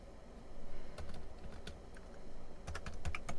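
Faint typing on a computer keyboard while searching: scattered light keystrokes that pick up into a quicker flurry of clicks toward the end.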